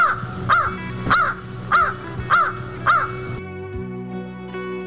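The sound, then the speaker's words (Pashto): A bird caws five harsh, evenly spaced times in a valley, roughly every half second, then falls silent while a steady low hum continues underneath. “مرغه پتنګ درکې انګازي خورې کړې، کاخ کاخ کاخ.”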